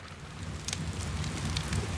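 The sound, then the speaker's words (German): Steady rain falls outdoors, a soft, even hiss with faint scattered drips and patters, fairly quiet and without pause. “Es regnet.”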